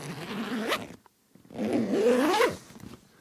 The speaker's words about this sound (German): Das ist eine Ledertasche, gerade aus Italien angekommen, von The Bridge. Sehr edle, schöne Marke italienischen Leders, die ich bei Vinted gekauft habe.